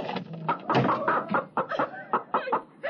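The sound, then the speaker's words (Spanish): A hen trapped under a basket while pecking at leftover wheat grains clucks in a quick, uneven series of short mid-pitched calls, clear and alone. “¡Una gallina! Era una gallina que estaba prisionera bajo el cesto. Quedaron unos granos de trigo y vino a comerlos.”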